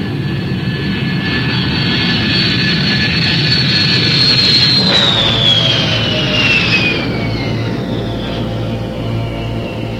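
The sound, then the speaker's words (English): An airliner takes off with a loud, continuous jet-engine roar. A high whine slides steadily downward in pitch as it holds at full strength for the whole stretch, with no voices. “Be advised you are now cleared for takeoff.”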